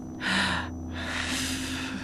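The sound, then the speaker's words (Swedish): A person takes a deep breath: one short, stronger breathy rush, then a longer, steadier airy stream. The breathing is soft and heard alone, with no talking. “Jag tar ett djupt andetag.”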